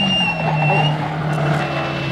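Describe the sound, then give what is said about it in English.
A car skids and drives into a hedge on a country lane: a loud engine drone carries a high squealing whine that fades out after about a second, leaving the rough, rumbling motor noise running on. “We didn't ask him to drive into the hedge.”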